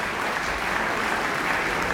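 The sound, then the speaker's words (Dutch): Enthusiastic applause from a concert audience after a chamber performance by clarinet, bassoon, horn and double bass. The clapping is dense and sustained at an even level, with no talk. “Ja, het is heel snel afgelopen nu, want het publiek weet nu dat ze kunnen klappen tot ze een ons wegen.”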